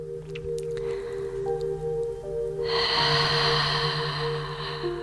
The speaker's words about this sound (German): Atme durch die Nase ein.